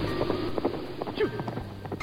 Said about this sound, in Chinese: 然后赶着马车走向森林